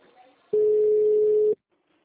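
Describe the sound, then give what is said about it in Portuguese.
A single telephone ringback tone, about one second of a steady, loud pitch, as a caller waits for a town hall switchboard to answer. Faint sound comes before it and near-silence follows. “Vai ligando, que demora para atender.”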